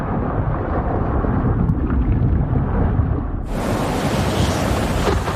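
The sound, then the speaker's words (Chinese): Storm wind and heavy waves roar over the open Indian Ocean in a continuous loud wash of noise that swells brighter and harsher partway through, with no voices. “海面之上，狂风暴雨肆虐。”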